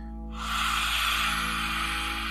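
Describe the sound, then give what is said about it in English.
A forceful open-mouthed exhale with the tongue stuck out, a yoga lion's breath, sets in abruptly as a breathy, airy hiss. It holds steadily for about two seconds over a faint low hum. “take a lion's breath with the face and with the mouth. So you open the mouth, you stick the tongue out, and you really open the eyes.”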